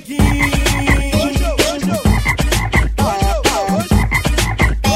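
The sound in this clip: Frogs croaking in quick, loud, rhythmic bursts, with many closely spaced croaks of varying pitch repeating throughout and no voices.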